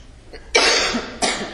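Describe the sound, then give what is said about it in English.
A woman coughs in sympathy with someone else who is coughing. Two loud, harsh bursts follow a faint lead-in, the first long and rasping, the second shorter, with no talk. “She's having sympathetic coughs.”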